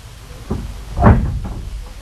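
A door being opened: a brief, low sequence of a few muffled knocks and bumps, with one louder, heavier thud in the middle.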